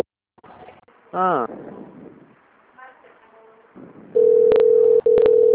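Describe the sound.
Near the end a telephone line rings with a steady, low continuous tone broken by a couple of sharp clicks, following quieter sounds and a short voice.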